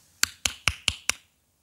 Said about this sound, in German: Als der Fuchs gerade niedergeschlagen und gedemütig nach Hause gehen wollte, klopfte es an die Tür.